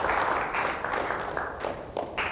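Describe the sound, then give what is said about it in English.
Applause from an audience clapping in church on a Sunday morning, a continuous dense wash of many hands at a fairly even loudness throughout. “Let's give the Lord a good clap offering here this beautiful Sunday morning.”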